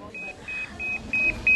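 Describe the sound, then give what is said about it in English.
Hospital pager bleeper beeping five times in an even rhythm, short high-pitched electronic tones that grow slightly louder with each beep, over a faint low background rumble. “This is how we are being paged. If somebody is looking for us, this is what they do. The bleep will go beep, beep, beep.”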